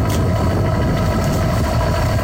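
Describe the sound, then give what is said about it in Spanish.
A boat's engine rumbles low and loud as the vessel leaves the port of Fisterra at night, a dense, unbroken drone that holds steady throughout. “Noite pechada. Así soa o motor de un barco sair do porto de Fisterra.”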